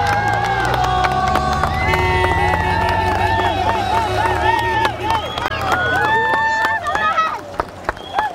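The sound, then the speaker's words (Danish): Crowd cheering and shouting as the PostNord Danmark Rundt cyclists pass through Tylstrup, a loud, continuous wall of voices, whoops and children's shrieks with clapping and rattling throughout, easing briefly near the end. “På de nordjyske landeveje er rigtig mange mennesker her til eftermiddag samlet for at se cykelrytterne til PostNord Danmark rundt. I Tylstrup lød det sådan her lidt tidligere på eftermiddagen, da rytterne kom forbi.”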